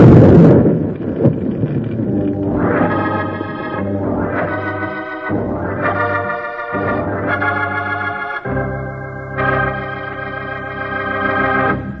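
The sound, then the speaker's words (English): Dynamite explosion as a radio-drama sound effect: a broad rumbling blast at the start that fades, followed by dramatic orchestral chords that swell in several surges. “Shooting at the dynamite. Get back, Jiggle.”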